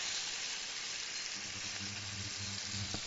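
Veal entrecote sizzles in a frying pan with butter and garlic just after being turned. A steady, even frying hiss fills the whole clip, and a soft low hum joins partway through.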